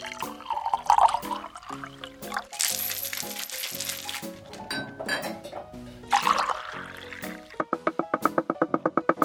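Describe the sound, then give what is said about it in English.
A cocktail is mixed with liquid pouring, glassy clinks and wet squishing. The sound ends in a fast, evenly pulsed rattling burst. “After you finish mixing that cocktail. Oh, of course.”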